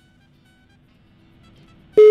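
A telephone ringing tone during a call cuts in after near-silence, a loud, steady electronic tone that holds unbroken to the end.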